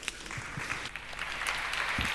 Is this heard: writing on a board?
no